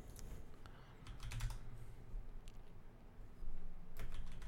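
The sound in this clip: Keyboard typing while entering a search in a maps app: quick, irregular soft taps over a low, steady background hum, with no voices.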